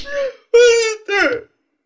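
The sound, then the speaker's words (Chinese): A woman cries and wails in three drawn-out, high-pitched, quavering sobs, each breaking off before the next, loud and alone with no other sound. “别哭别哭”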